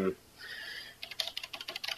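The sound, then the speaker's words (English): Computer keyboard typing as someone enters details into a system: a quick, irregular clatter of light key taps that starts after a brief quiet gap and continues at a fairly even pace. “I'm just typing a few things in on the system here.”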